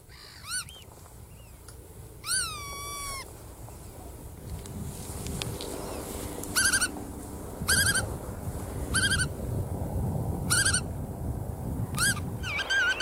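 Black-tailed godwit calls come in several separate bursts of loud, nasal, harmonically rich notes that bend up and down in pitch. Each burst stands out clearly over a steady low rumble.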